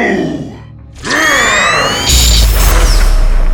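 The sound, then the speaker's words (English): A sci-fi energy beam fired from a staff zaps with a bright, sweeping whine, then a teleporter explodes into a loud, sustained roaring rumble that keeps going to the end. “Zed fires his staff, Zed's beam passing through the vanishing figure to hit the teleporter, which explodes.”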